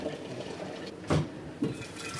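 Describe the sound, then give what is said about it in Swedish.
Moose goulash soup being poured into a food thermos: a faint, soft liquid gurgle running throughout, broken by two brief, slightly louder splashy glugs. “Vi ska ta och fylla mattermosen med lite gulaschsoppa. Gjort på älg.”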